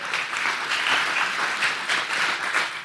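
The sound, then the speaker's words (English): A church audience applauds, a dense, steady wash of many hands clapping that holds at an even level throughout with no pause. “Can we give it up for all the Phoebes in the church?”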